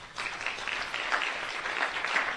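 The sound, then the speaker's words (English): Applause from a big morning crowd: dense, steady clapping that holds at an even level for the whole stretch, with no voices above it. “I told you it was a big crowd this morning. So round of applause.”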